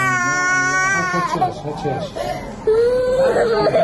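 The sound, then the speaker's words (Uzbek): A young girl wails and sobs in pain as a nurse stitches her head wound without painkillers in a wartime Gaza hospital. The high, strained cries come in loud, drawn-out bursts. “Hamshira yaralangan qizchaning bosh jarohatini og'riqsizlantiruvchi vositalarsiz tikyapti. Bola og'riqqa dosh bera olmay yig'layapti.”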